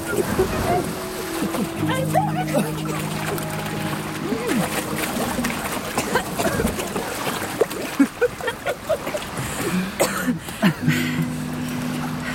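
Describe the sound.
Sea waves and splashing as people swim in the sea, water sloshing continuously under talking voices and sustained musical tones, with choppier splashes toward the end.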